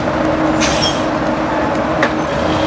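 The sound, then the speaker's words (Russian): A bus stops on a small town street: a steady, dense engine and road rumble runs throughout, with a brief high hiss early on and a short sharp sound near the end. “Автобус останавливается на улице небольшого города.”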